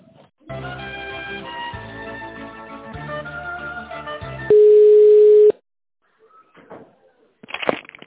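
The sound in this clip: Telephone line sounds while a call is being connected: a few seconds of steady, tonal, music-like sound, then a single flat beep about one second long, followed by brief faint clicks and handling noise.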